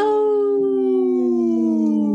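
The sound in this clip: A wolf howl rings out as one long, loud, continuous tone, steady and slowly sinking in pitch over about two seconds, with no other sounds around it.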